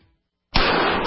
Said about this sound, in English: That's the sound of a .44 Magnum and Traumamax.